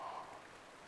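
Flowing river water, a soft, steady wash of noise that stays faint and even over a brief moment.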